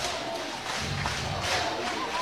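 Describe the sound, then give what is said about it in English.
College softball fans roar and chant in the stands as Sooners supporters rise to their feet, a loud, dense crowd noise that holds steady and swells slightly. “Crowd is going nuts right now.”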